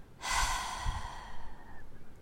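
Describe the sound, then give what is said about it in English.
A long, forceful exhale after a breath hold in a guided breathing exercise: one loud, airy rush of breath that gradually fades and carries a slight rasp. “now hold your breath for 5, 4, 3, 2, 1, exhale”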